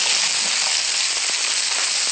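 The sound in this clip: Butter beans and fresh beans fry in a pan while being stirred, giving a steady, dense sizzle with a few faint low knocks and no voices.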